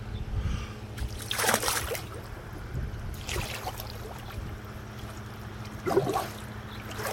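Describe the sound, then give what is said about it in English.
Water splashing from someone swimming laps in a backyard swimming pool: a few soft swishing strokes rise and fade over a steady low hum. “And so I have a little video I wanted to show you to show off my swimming pool. I hope you'll enjoy it. Okay, join me as I swim a few laps.”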